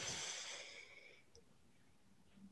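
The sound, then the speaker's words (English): A deep breath drawn in through the nose during a guided breathwork session: a soft, airy rush for about a second that fades into near silence, faint and without talk. “taking a deep breath in through your nose”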